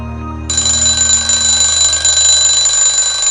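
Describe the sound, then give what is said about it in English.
An alarm clock rings in the morning, a bright continuous electronic tone that starts after a short pause and holds at a steady, fairly loud level to the end over a low background hum. “Robin shuts off the alarm clock and falls back to her pillow”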